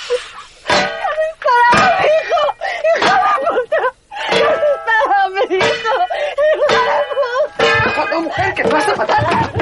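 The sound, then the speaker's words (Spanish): Frying pan blows striking a policeman's head as a woman keeps beating him during a violent struggle in a drama: several sharp smacks amid loud cries, whimpers and shouted voices. “Natalia lo golpea en la cabeza con una sartén. El niño se libra de Tony y la mujer sigue golpeando al policía.”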